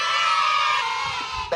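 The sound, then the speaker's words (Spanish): Many children screaming together as a sound effect: a dense, high-pitched, sustained wall of shrieks and shouts that holds steady and loud for about a second and a half. “siga poniendo a los nenes a gritar en momentos inapropiados”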